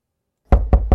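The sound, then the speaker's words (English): Three loud, firm knocks at a door in quick, even succession, heard alone after a short silence. “This summer, that knock at your door could be Children's Health Foundation.”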